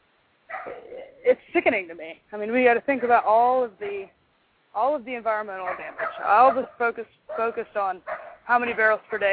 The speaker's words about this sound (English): excuse the dog barking in the background if y'all can hear that.